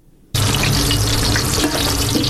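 Food frying in a women-only restaurant kitchen in Herat: a sudden loud sizzle bursts in after a quiet moment and then hisses on steadily and evenly.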